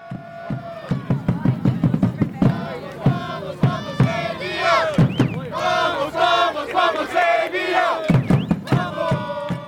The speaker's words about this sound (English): When you go to an Asheville City Soccer Club game, you're not just watching soccer, you're welcomed into what players and fans call the South Slope Blues.